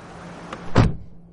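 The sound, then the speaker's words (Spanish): A car door thuds once as a man abruptly gets out of a car. It is a single short, solid bang in the middle, preceded by a faint click. “De pronto el padre de Raúl hace un movimiento brusco y sale del coche.”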